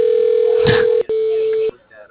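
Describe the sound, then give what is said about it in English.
Telephone tones as a call is transferred to voicemail: a steady mid-pitched tone with a brief faint voice over it, a click, then a second shorter steady tone that cuts off abruptly into quiet. “I'll transfer you to his voicemail.”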